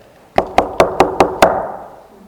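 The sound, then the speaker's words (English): Six sharp, evenly spaced knocks on a hard surface, imitating a chimpanzee knocking on a tree trunk, each with a short ringing decay and no talk. “He starts knocking on the tree trunk.”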